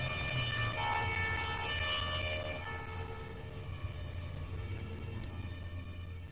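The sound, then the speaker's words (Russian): A fire engine siren wails faintly in the distance, a drawn-out harmonic tone that holds over a low, steady noisy background and fades slightly toward the end. “Вдалеке выла сирена пожарной машины.”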